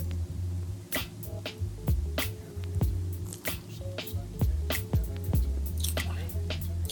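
Wet mouth sounds of tasting something with a pear aroma and a lemon note: many small clicks and smacks repeating irregularly over a low steady hum.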